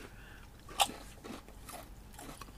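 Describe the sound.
Crunchy bites of taco-flavoured Pringles potato crisps: one sharp, loud crunch, then softer, irregular chewing crackles.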